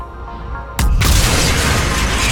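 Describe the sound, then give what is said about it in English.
Explosion blasting into a large fan in a video game and shattering one of its blades. A low mechanical hum is cut by a sudden loud boom, followed by a sustained roaring rush of noise. “Does a big old blast into the fan, and it shatters one of the fan blades, and then the fan stops, and a door is revealed.”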